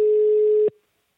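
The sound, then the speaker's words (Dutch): A single long ringback tone sounds on a telephone line as a call is placed: one steady, mid-pitched electronic beep that holds evenly and then cuts off sharply, leaving silence. “we gaan haar bellen”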